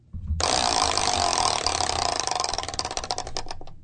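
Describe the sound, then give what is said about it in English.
A prize wheel spins during a game show, starting with a sudden dense clatter of rapid ticks. The ticks gradually slow and separate into distinct clicks before cutting off abruptly. “All right, here we go. Let's spin the wheel.”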